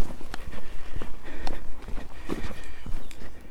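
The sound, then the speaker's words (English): Footsteps walking along Bluebell Walk, a path full of bluebells. Many irregular, crisp steps thud and scuff in an uneven rhythm, some louder than others. “now walking along Bluebell Walk,”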